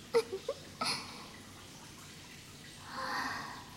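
Hot bath water splashing and trickling in a bath: a few small, quick drips and splashes at the start, then a soft, rising swell of running water toward the end, with no talk.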